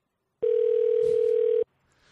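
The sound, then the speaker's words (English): A telephone line sounds after a call has ended: one clean, steady, mid-pitched electronic tone lasting a little over a second, which cuts off sharply into near silence. “Wait, why is it ringing?”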